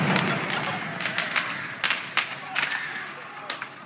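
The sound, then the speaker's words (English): Gunshots fired at people: several sharp, loud cracks burst out against a dense, noisy background, spaced irregularly through the second half. “They're just fucking shooting at people.”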